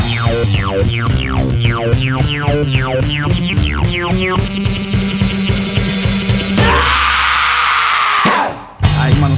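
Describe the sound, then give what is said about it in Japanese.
A sudden harsh scream cuts into a rock song after several seconds of rhythmic, pulsing instruments with wobbling bass. The loud, noisy yell lasts briefly before the music drops out. “聞いてる方はびっくりしたと思いますけどね、唐突に叫びますね。”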